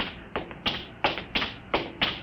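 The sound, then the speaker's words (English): Footsteps of someone approaching: about six steady, evenly spaced taps, each a crisp thud, coming alone in a quiet stretch. “I hear somebody coming.”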